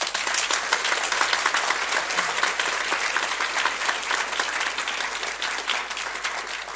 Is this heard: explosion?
no